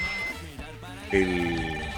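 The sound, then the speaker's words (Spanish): An electronic ringtone from a WhatsApp incoming call on a phone sounds in repeated tonal pulses, with a sustained higher tone joining midway. “A ver, tengo acá en el WhatsApp, me llama un amigo y colega.”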